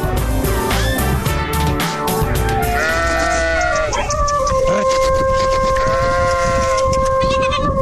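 Sheep and goats bleat loudly, with many wavering, overlapping cries over a dense background, some calls long and sustained, others short and quick.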